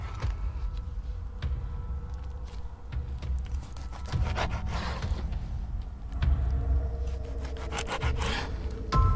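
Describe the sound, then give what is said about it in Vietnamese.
A grandmother cutting meat with a knife on a chopping board in a horror story, heard as a rough, rasping scrape that repeats steadily throughout at a fairly loud level. “những âm thanh lại tiếp tục vang lên trong căn phòng đáng sợ. Những âm thanh mà làm cho bố tôi nghe đến giận người. Tiếng bà ngoại cắt thịt, xoàn xoạt xoàn xoạt.”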